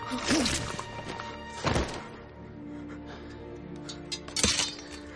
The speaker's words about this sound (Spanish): La espada dardo le atraviesa desde la espalda.